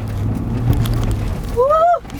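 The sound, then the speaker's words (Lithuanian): A car engine is given extra throttle to keep the car from slipping while driving a slippery stretch. A loud, steady low drone holds throughout and swells briefly near the end. “Aha, gerai, biškį gaziuką daugiau. Čia, žinok, čia... Daugiau, nes mes čia, kad nenuslystumėm kažkurį galą.”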